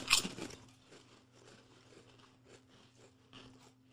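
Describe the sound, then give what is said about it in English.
Crunching on squid-flavored exotic snack chips: one loud crisp bite at the start, then a run of softer, irregular chewing crunches over a faint low hum. “I think I need to try another one. It tastes like the fucking barbecue chips. It does. I was about to say. I don't think I taste any squid.”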